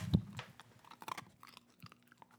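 Crunchy chewing of Milk-Bone dog biscuits: one sharp, loud bite first, then many irregular, softer crunches and chews, quiet overall.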